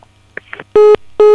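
A telephone line disconnects during a call. A few faint clicks and blips are followed by two loud, steady electronic tone beeps separated by a short gap.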